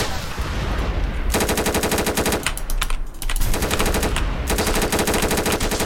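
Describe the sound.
Automatic gunfire in a video game comes as several long, rapid machine-gun bursts over a dense, noisy background, with short gaps between the bursts.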